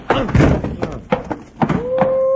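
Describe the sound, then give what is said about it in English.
A punch knocks a man out during a fistfight: several heavy, sharp thuds and impacts, mixed with a strained vocal cry early on. “You really smacked him.”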